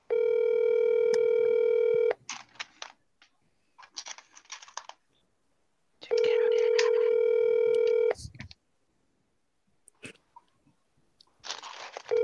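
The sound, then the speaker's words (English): A telephone call rings: two long, steady, buzzing ring tones of about two seconds each, with gaps in between holding scattered clicks and crackle, and a third tone starting at the very end. “Always got a Louisiana ass answering machine.”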